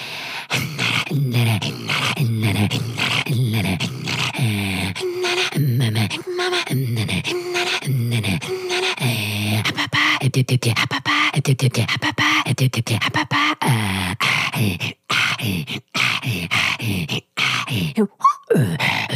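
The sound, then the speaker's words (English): A human voice imitates reindeer breath, making a low, vibrating throat-singing-like sound in a steady rhythm. Many pulsing, grunting breaths repeat continuously for about nineteen seconds, turning choppier and more broken toward the end. “so the reindeer breath, I usually address to people and say, so don't be scared from that, because it sounds really, with a low vibration, like almost like a throat singing, but it's rhythmic throat singing.”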